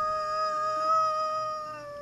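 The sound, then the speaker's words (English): A person howling like a wolf, the voice imitating the animal: one sustained, high tonal note rich in overtones that swells slightly midway and then eases off toward the end. “Where are you howling from?”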